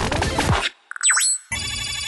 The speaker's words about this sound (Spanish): Llamada entrante.